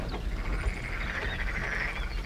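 Frogs croak by a brook in a dense, steady chorus of rasping trills that runs unbroken through the whole stretch at moderate loudness, over a low continuous rumble.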